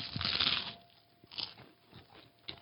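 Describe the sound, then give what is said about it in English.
Biting into and chewing lemon pepper flavored tuna: a loud crisp crunch of the first bite, then a few softer, spaced crunches as the mouthful is chewed. “All right, we got our first bite here. This is lemon pepper flavor, either tuna or tuna.”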